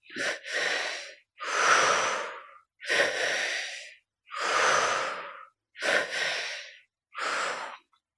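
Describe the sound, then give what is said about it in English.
Deep rhythmic breathing in a breathwork pattern, drawn in through belly and chest and released through the mouth: several loud, airy breaths in a steady cycle, some in quick doubled pulls, separated by brief silences. “So we're breathing the energy into the belly first, up into the chest, and out through the mouth. So the pacing is a little bit like this.”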